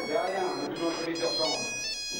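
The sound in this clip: Mobile phone ringtone: a steady electronic tone with bright, sustained high notes that plays continuously, with voices talking underneath.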